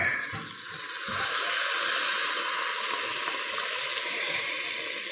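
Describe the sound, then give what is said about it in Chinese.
Boiling water pours into a pot over fish for a chili-steamed fish dish, a steady hissing rush that holds at an even level throughout with no talk. “还是加入开水”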